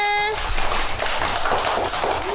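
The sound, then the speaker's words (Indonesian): A group of people clapping their hands together, a dense, continuous patter of many claps with voices mixed in throughout. “Oke, tepuk tangan semuanya.”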